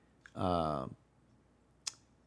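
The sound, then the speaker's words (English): Computer mouse clicking on a web page: two brief, sharp clicks, one just before a short hummed voice sound and one well after it. “Oh my god, this is one of those pages that's like separated into like different pages or different pages for the website. So you have to like click down on a thingy.”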